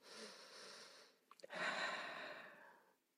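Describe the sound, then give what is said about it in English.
A physiological sigh: after an earlier breath, two quick back-to-back inhales are followed by a long, audible exhale that trails off. “I could do it right now, you know, two back-to-back inhales, a longer exhale. And that might just seem like I'm almost like recalibrating.”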